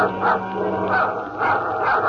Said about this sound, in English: Suddenly, she hears Bobo's dog growling.